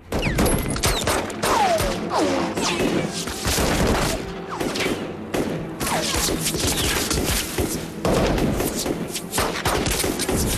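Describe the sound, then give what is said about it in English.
Rifle gunfire is exchanged across a rocky ridge, with shots fired and returned. Many loud, sharp cracks come in dense, overlapping bursts that keep going the whole time with almost no pause. “As their eyes scan the rocky ridge, rifle rounds are fired at them. The bullets fall short. The two of them return fire.”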